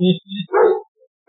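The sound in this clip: A voice imitates a dog barking with a few short, loud, harmonic woofs in quick succession, then a brief gap before another begins.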